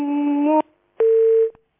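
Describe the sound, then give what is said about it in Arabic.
A busy tone after a phone line is cut off: two steady electronic beeps, each about half a second long and separated by a short silence, loud and alone. “السكة اتقطعت.”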